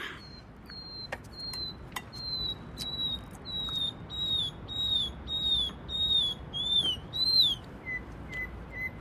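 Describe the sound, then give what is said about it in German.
A nightingale singing: a long run of clear, high whistled notes repeated in steady rhythm that grows louder, then a few softer, lower notes at the end, with faint clicks mixed in. “Hör mal, was ist mit der Amsel los? Das ist doch keine Amsel. Was ist denn sonst? Na, eine Nachtigall.”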